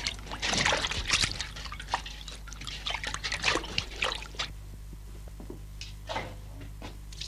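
Water is poured into a basin to be mixed with yeast for bread dough, making uneven splashing and trickling that is heavier at first, then thinner, with a few sloshes near the end.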